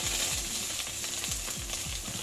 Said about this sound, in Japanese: さっき切ったやつを焼いてんね焼いてんぞ